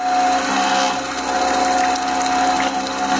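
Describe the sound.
A milk cream separator runs on fresh cow's milk in a village home near Lake Issyk-Kul, Kyrgyzstan: a loud, continuous mechanical whir with a steady high hum and fine rattling, holding level throughout.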